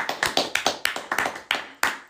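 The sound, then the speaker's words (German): A small group of young men claps, giving sharp, distinct hand claps in a quick, uneven rhythm that runs for a couple of seconds. “Erstmal einen Applaus, Jungs, okay?”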